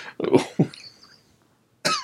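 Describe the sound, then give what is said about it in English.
A person with an irritated throat coughs in a few harsh, rough bursts near the start, then falls silent before another strong cough at the end. “I'm coughing too much because my damn throat.”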